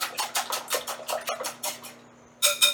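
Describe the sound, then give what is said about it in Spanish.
A whisk beats sifted flour into egg in a bowl, seasoned with salt and pepper: quick, evenly spaced scraping strokes in a steady rhythm, then a short pause and two louder strokes. “Lo cernimos encima del huevo y lo batimos enérgicamente, mezclando todo rápido.”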